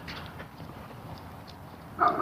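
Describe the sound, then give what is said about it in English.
A dog barks somewhere in the neighborhood, faint over a steady outdoor background, with one louder short bark near the end. “it's a dog off in the neighborhood there somewhere.”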